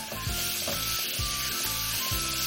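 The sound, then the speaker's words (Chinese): Loud, steady sizzling of spring bamboo shoots frying over high heat after light soy sauce goes into the pan for twice-cooked pork, with a few rhythmic low stirring knocks underneath. “首先生抽开大火，把这个春笋倒进去”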